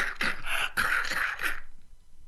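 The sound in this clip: A voice imitates a harsh, repeated cough from a smoke-choked monk in a yellow robe, giving a run of several rough, throaty bursts for about a second and a half, then silence.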